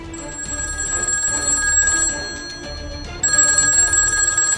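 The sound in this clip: A telephone rings with an incoming call on a father's home phone, a steady electronic bell tone that holds evenly, then jumps louder and brighter partway through, with no voices.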